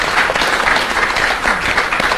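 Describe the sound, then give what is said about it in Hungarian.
Applause from a church audience clapping for performers, dense and steady clapping that stays loud and even across the whole moment, with no voices over it. “Tapsoljuk meg őket, hogy jól csinálták.”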